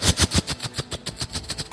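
Rapid gunfire in a military scene with soldiers and a captain: a fast, steady string of many sharp, loud shots, like an automatic weapon firing in one continuous burst.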